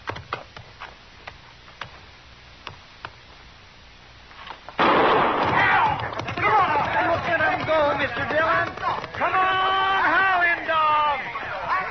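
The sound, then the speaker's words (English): A single gunshot starts a horse race in a western radio drama. Several seconds of faint, steady ticking give way to a sharp, loud crack, followed at once by continuous crowd noise and shouting voices. “All right, move up on the line. Now I'll fire one shot. All right, steady now.”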